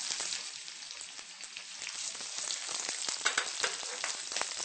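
Borts, Mongolian dried meat, sizzles as it fries in a pan, a steady dense crackle and hiss that runs the whole time with no pauses and no voices.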